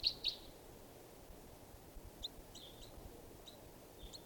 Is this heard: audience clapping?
no

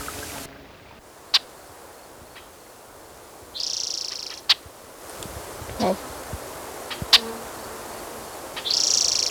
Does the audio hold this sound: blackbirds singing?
yes

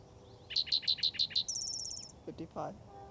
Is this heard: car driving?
no

